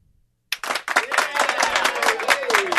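Canned studio audience applause bursts in abruptly after a moment of silence, becoming dense, steady clapping that holds at a fairly loud level to the end.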